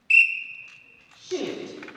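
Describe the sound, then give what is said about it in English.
A single sharp whistle blast gives the signal at a student air rifle tournament in a school gym, a steady shrill tone lasting about a second, followed by a short, muffled burst of sound. “in the small town of Clever, just outside Springfield, Missouri, students in the gym wait for the signal from a whistle to shoot at their targets”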